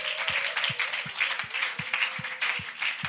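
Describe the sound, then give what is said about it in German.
Applause from an audience at a church worship evening, a dense steady clatter of clapping with a regular low thump running beneath it and a sustained tone over the top. “Lasst uns wirklich Jesus da mal einen Applaus geben.”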